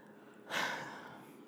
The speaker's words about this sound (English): You did a lot of breathing.